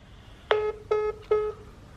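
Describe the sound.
Telephone keypad dialing tones: three short, steady electronic beeps of even length, clearly separated and fairly loud against a quiet background.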